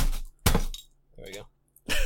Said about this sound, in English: My beer wasn't enough to finish my shot, so I have to open a beer.